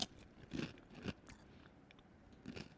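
Crisp crunching as hot mustard flavored Doritos tortilla chips are bitten and chewed, a few sharp crackly bites standing out from faint chewing, soft and with no talk.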